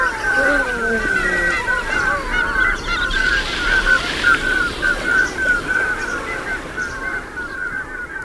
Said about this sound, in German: Unser Vogel der Woche, die Trauerente.